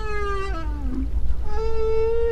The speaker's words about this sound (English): Female right whales produce special calls.